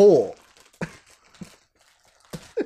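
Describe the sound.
A crinkly snack chip bag being stretched without tearing gives a few short, crackly rustling bursts separated by pauses, with people talking around them.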